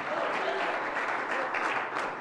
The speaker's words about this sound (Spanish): Dale ese aplauso de alabanza al Señor.